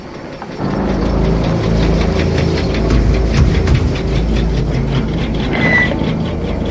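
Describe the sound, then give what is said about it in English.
An old blue car's engine as it pulls into a secluded area: a steady low rumble that starts after a brief quiet moment and holds at an even level throughout, with no distinct shutoff. “The old blue car pulls into a secluded area and comes to a stop.”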